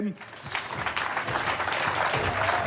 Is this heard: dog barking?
no